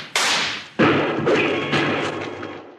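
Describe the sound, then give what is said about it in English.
Gunshots in a Western shootout: two loud, sharp cracks, each followed by a long fading decay, with no talk. “let's shoot at those lizards some more and shake up Rocky's hearing again.”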